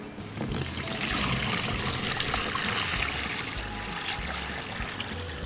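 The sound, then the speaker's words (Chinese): Water pours steadily into a container, four litres being added for making aiyu jelly, a continuous bright splashing trickle that holds even and loud throughout with no talk. “那我们今天所搭配的是四十公克的爱玉，四公升的水 好， 倒入到那个容器里面。”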